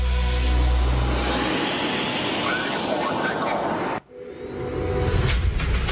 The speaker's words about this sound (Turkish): Kağan savaş uçağının P1 prototipinin yer testinden görüntüler geliyor ekranlara.